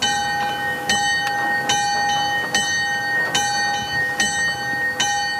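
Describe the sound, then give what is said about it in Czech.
A church tower bell, cast in 1616 in České Budějovice, tolls in evenly spaced, loud clangs. Each strike leaves a long, ringing hum that carries into the next, with no voices. “1616 tento zvon slíval Valentin Arnold z Budějovic českých.”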